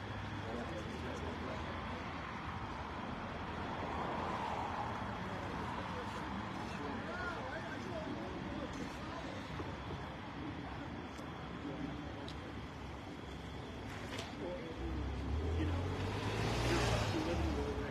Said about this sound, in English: More cars going up.